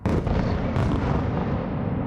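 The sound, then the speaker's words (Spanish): Bombs explode during a Russian night attack on Kyiv. Two sharp blasts merge into a continuous, heavy, low roaring rumble that barely lets up. “Así es como se ven las bombas y así como se escuchan.”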